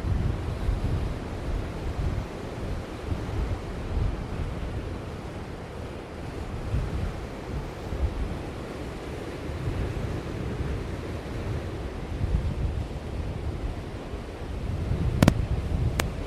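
Wind and surf on a wild stretch of the Pembrokeshire coast beside a seaweed hut: a steady, broad roar of breaking waves mixed with gusty wind buffeting the microphone, with one brief click near the end.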